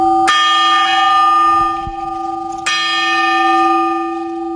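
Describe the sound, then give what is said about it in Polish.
A tower clock bell strikes twice. Each stroke is a loud clang followed by a long, steady ringing hum that lingers until the next strike, with no voices. “Mamy mniejszy dzwon, który wybija 4 razy podczas godziny, no i mamy większy dzwon, który co godzinę się odzywa. Dźwięk kwadransowy jest zdecydowanie wyższy, dźwięk godzinowy jest niższy, taki dostojny.”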